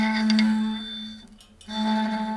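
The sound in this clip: Bowed tone from a round wooden plate fitted with a circle of screws, played with a bow: a sustained, steady pitched note rich in overtones that drops away briefly midway, then returns at the same pitch.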